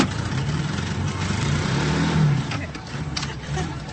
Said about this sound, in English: Okay, now, just let ease the clutch out and push on the gas.